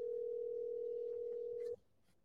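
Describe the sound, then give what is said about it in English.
A phone dial tone sounds while a call-in guest is being dialed: one steady, unwavering tone holds for under two seconds, then cuts off abruptly into near silence. “So let me just dial him up.”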